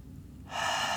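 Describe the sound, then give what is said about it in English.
A deep breath drawn in by a person leading a calming journaling exercise: a single airy, hissing inhalation that starts about halfway through and holds steady and fairly loud to the end, with no talking. “So before we begin, just, you know, wherever you are, take a deep breath.”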